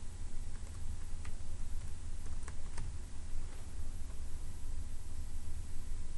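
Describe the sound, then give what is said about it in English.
Keystrokes on a computer keyboard as admin credentials are typed in. A few faint, irregular clicks sit under a loud, steady hiss. “I'll type in my admin credentials”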